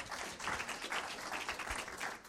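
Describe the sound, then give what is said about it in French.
Audience applause for four speakers at the end of a French-language presentation: a soft, steady wash of many hands clapping that continues evenly without pause. “Merci à vous quatre. Vous pouvez les applaudir, bien sûr.”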